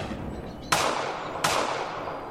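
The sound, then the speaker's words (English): Two sharp gunshots from a powerful rifle crack out in quick succession, each a loud, abrupt burst with a brief fading tail over low background noise. “He damn near took my head off. That's a powerful rifle.”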